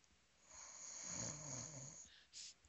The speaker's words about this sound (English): It got somebody in here snoring.